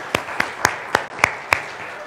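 Clapping from a church audience: six sharp, evenly spaced claps stand out over a faint, steady background of more hands.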